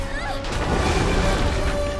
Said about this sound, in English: The monster explodes.